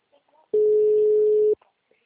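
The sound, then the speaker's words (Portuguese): A telephone tone while a call is being placed: one steady, mid-pitched beep lasting about a second, alone in near silence. “Não, tô tentando ligar.”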